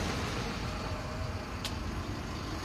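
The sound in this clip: Car traffic in the busy centre of Castro, a continuous low rumbling wash of passing vehicles at an even, fairly quiet level with no distinct horns or voices.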